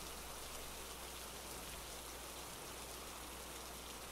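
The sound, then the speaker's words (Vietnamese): Pouring rain in a thunderstorm over a wild forest, an even, unbroken hiss at low level throughout, without clear thunder claps or voices. “Có một hôm trời mưa giông tầm tã, sấm sét đầy trời.”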